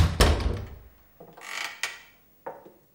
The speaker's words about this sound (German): Ich gehe bis zur Tür, öffne sie vorsichtig und trete ein.